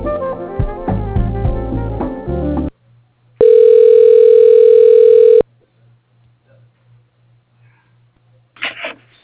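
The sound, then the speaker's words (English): A telephone call being transferred to voicemail gives a steady, loud two-second tone over a faint, low, pulsing line hum. The tone comes after a short stretch of busy tonal sound and ends in near silence with a brief final blip. “Okay, I can transfer you to his voicemail.”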